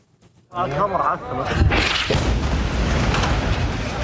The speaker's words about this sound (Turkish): Şiddetli bir patlama yaşandı. Gecenin karanlığını alevler aydınlattı.